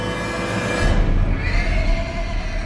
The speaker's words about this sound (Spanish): El hambriento caballo estaba relinchando repetidamente y de forma casi extraña, y él deseó vagamente que parara.